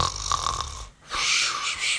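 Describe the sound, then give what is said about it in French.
Snoring from a sleeper: two long, rough snoring breaths separated by a brief quiet gap, each with a raspy, buzzing texture and a fairly even loudness. “Pendant ce temps, Biscotte ronfle à poing fermé.”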